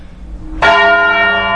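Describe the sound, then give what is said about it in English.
Black Tom, a church bell as heavy as a Mini Cooper, tolls the devil's knell: one deep, heavy strike followed by a long, rich ringing hum that sustains with little decay. “they do what they call the devil's knell, which is ringing the bell once for every year of the Christian era. So that's over 2,000 yanks of the rope by now.”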